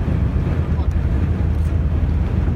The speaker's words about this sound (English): What you're hearing is the group crossing over the Missouri River, which is the longest river in North America, stretching 2,341 miles.